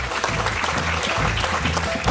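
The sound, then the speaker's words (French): A studio audience applauds a guest after a correct quiz answer on a French-language radio show. The clapping is full and continuous, with dense individual claps running evenly from start to finish. “Une bonne réponse de notre invité et je vous propose qu'on l'applaudisse”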